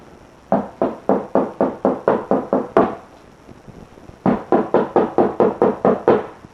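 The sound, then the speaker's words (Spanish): Knuckles rap on the door of a house in two quick runs of even, sharp knocks, about eight or nine in each, split by a short pause. “Pronto, toquen la puerta.”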